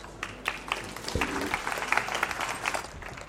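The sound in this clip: Fairly quiet audience applause greeting a professor introduced at a talk, a modest crowd of hands with separate sharp claps standing out from a soft, steady patter throughout.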